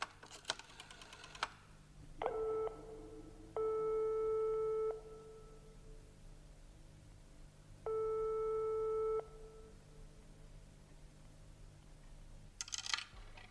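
Telephone line tones after a coin drops into a payphone and a number is dialed. Sharp clicks come first, then a short tone and two long, steady, buzzy tones separated by a pause, with another burst of clicks at the end.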